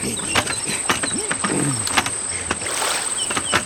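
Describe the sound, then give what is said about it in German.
Water sloshes around a rowboat on the sea, with many short splashes and knocks over a steady watery wash. A thin, high, insect-like whine runs throughout. “Da, vor uns ein Ruderboot. Ja. Genau das brauchen wir jetzt.”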